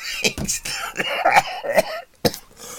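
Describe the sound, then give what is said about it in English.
A person coughs several times in harsh, breathy bursts, with a brief silence before a last sharp cough. “Excuse me, I still have this cough.”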